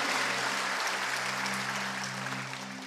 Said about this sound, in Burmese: ဟာလေလုယာလက်ခုပ်လက်ပြားကိုချီးမွမ်းရအောင်အာမင်